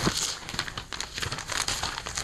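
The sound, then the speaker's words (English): A paper page being turned gives a loud crinkling rustle, with a few crisp bursts of crackle spread over about two seconds. “Turning the page.”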